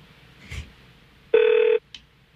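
A telephone gives a single short ring, a steady, buzzing electronic tone lasting about half a second, with a couple of faint clicks before and after it.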